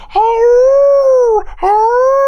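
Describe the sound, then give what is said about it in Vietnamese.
A person imitates a dog howling while kneeling with head raised: two long, sustained, wavering howls with a short break between them. The second howl is cut off at the end. “Đó là mình quỳ xuống như vậy là ngẩng cái đầu lên hú”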